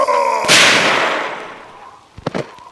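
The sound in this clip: A single powerful gunshot from a gun with adjusted sights booms out, and its blast decays slowly over more than a second before a few quieter knocks follow.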